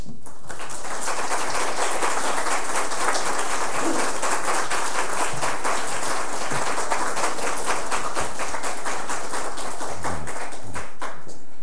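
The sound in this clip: A church audience applauds to welcome a visiting professor who is about to preach. The clapping is sustained and evenly textured, a loud, rain-like patter that holds without a break for the whole stretch.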